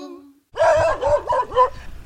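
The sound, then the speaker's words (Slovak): A dog barks in greeting at a house: after a brief quiet start, a few loud, uneven barks and yelps follow in quick succession. “V dome, kde býva rakovská maliarka pani Zemaníková, nás privítal pes a snáď sa dostaneme aj dnu”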